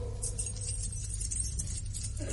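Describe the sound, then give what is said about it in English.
Keys being hung on a hook, with a faint, brief metallic jingle near the start and another light jangle at the end, over quiet background hiss. “I'm just hanging my keys on the hook.”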